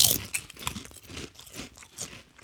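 Crunchy biting and chewing of tangy barbecue potato chips: a string of crisp, brittle crunches in a loose rhythm, the first bite loudest and the following chews slightly softer.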